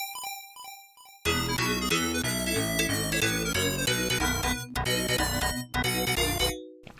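Bright, busy arcade video game music from a vertical-scrolling platform game set in a cute, candy-colored world of themed islands. A short, sparse tonal intro gives way to a loud, dense melody over pulsing bass, with a couple of brief dropouts before it cuts off.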